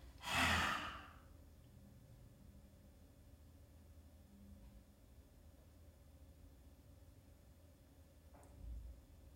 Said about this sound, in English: A lot of people like to squeeze the face together first and then take a nice breath.